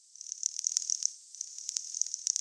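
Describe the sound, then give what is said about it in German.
Echolocation clicks from a toothed whale, produced by phonic lips beneath the blowhole, form a rapid, irregular train of many sharp, high-pitched clicks over a faint hiss. The train pauses briefly partway through. “Damit orientiert sich der Wal im Meer, er kommuniziert und ortet seine Beute. Zunächst produziert er mit seinen phonetischen Stimmlippen unter dem Blasloch ein Klickgeräusch.”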